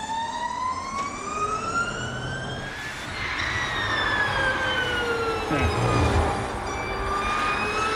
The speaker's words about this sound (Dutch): Dit is het geluid van de Formule E. Leuke articulatieoefening is dit. Formule E dus, die elektrische auto's klinken dus zo.